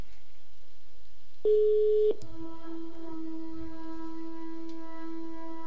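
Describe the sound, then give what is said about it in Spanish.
Telephone line tones as a call is placed, a short, steady, higher tone followed by a longer, lower, humming tone that holds until the end, faint and alone. “Ahora sí, creo que ya vamos a poder llamar a Dulce Sinfonía.”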